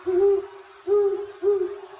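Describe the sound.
An owl hoots three times in a steady rhythm, each call a clear, low, hollow note about half a second long, with short gaps between them and no voices.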